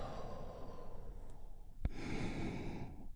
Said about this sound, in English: where we get to take a big, deep, healing breath all together. Here we go. And release.